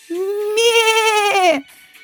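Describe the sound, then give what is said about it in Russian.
A single drawn-out goat bleat, a loud, nasal, wavering cry lasting about a second and a half that drops in pitch at the end. “Это я, коза Козловна!”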